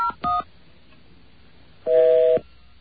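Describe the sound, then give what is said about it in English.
Telephone touch-tone dialing while calling a number: a couple of short electronic beeps, a pause of more than a second, then a longer steady tone cut off cleanly, with no talking. “Let's see if we can get an identity on that by dialing 9901.”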